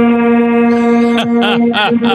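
An air horn blasts a long, loud, steady tone with a rich buzzing character that runs through the whole clip. Short bursts of other sounds cut in over it near the end.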